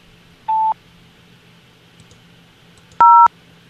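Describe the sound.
Telephone keypad DTMF tones dialed on an automated hold line: two short, clean electronic beeps, the second louder and higher in pitch, separated by a few seconds of faint line hum.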